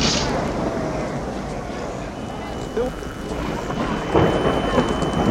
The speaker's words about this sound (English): I see it. The wind is blowing this way. Please be on this side of the towers.